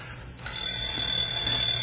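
An alarm clock rings with a steady, piercing high tone and a buzzing rattle beneath it. It starts a little softer and holds at an even loudness for the whole stretch, with no voices.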